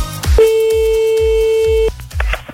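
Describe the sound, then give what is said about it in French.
A telephone rings out on a call: a single steady, mid-pitched tone holds for about a second and a half, then cuts off, with low thumping underneath. “on appelle grâce au numéro que vous nous envoyez tous les soirs”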